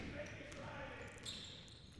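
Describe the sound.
A basketball is dribbled on the court during a college game between SUSCC and Lawson State, with faint bounces under a commentator's steady play-by-play and a low crowd murmur.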